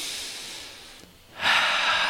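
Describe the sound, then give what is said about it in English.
A deep breath drawn in, heard as a soft airy hiss that fades, then after a short pause a louder, fuller rush of breath that holds steady. “I take a deep breath in.”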